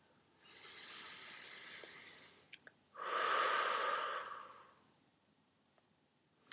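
Calm breathing during a relaxed yoga settling-in: a soft, drawn-out inhale, then a fuller, louder sighing exhale, both faint and alone with no talk.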